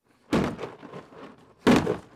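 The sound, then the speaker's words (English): A sledgehammer knocking apart a plastic shed that a monsoon storm toppled in a backyard: two heavy, hollow thunks about a second and a half apart, each with a short rattling decay. “he's using a sledgehammer to take it apart”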